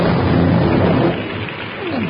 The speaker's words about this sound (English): Oh, Sapristi, what bad luck. It's starting to rain.